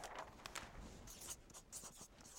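Writing on a chart, a continuous faint scratching of strokes with a few slightly louder scrapes, heard alone without talk.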